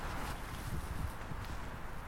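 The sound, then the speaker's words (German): Footsteps on a walk through a newly built social housing estate, a dense run of soft, shuffling steps that blend together over a steady background hush, with no talk. “auf einen Spaziergang mit.”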